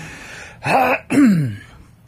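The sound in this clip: A person clears their throat on air in two short, rough, raspy bursts; the second is longer and stronger. There is no talk.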